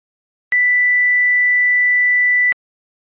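Pure sine tone sounding the ninth harmonic, note B, holds one high, steady pitch at even loudness for about two seconds, starting and stopping cleanly, with silence before and after.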